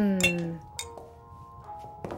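Glasses clinking in a toast, with a few bright, ringing chimes that strike sharply and then fade.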